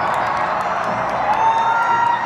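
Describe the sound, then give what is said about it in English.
Crowd cheering at a total solar eclipse watch party at the Indianapolis Motor Speedway: thousands of voices form a steady, dense roar, with a thin whistle-like tone sustained through the second half. “In Indianapolis, at the largest watch party in the world, thousands cheering the eclipse from the iconic Motor Speedway.”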